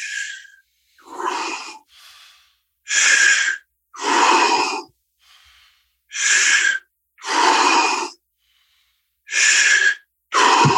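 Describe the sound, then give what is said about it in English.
A standing person breathes deeply as a breathing exercise, with many loud, breathy inhales and exhales alternating in a slow rhythm and separated by short silences. “You stand up and you breathe deeply. Be very conscious into your body.”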